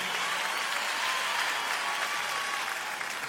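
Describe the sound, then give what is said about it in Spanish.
Audience applause at an event: a thick, continuous wash of many hands clapping, even and sustained at a steady level throughout. “Fuerte el aplauso, por favor, Tour Tarazo.”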